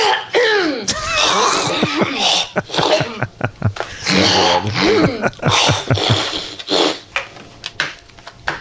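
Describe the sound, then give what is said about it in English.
Wet throat-clearing and phlegm-hawking effect from a film scene's sound design: many gurgling, snorting bursts and choppy hacks in quick, uneven succession, fairly loud and without speech. “But I think that is the phlegm globber. I love that. Like, what? Did you put a phlegm globber in it?”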